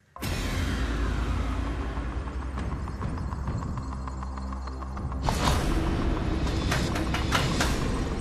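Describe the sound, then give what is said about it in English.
A plastic counter rattles down through a game show drop machine: many quick clicks and clatters as it bounces, over a steady background hum, growing louder near the end. “You put the counter into the machine. Where do you want to go? I'm going to try drop zone one, please. OK, light up drop zone one,”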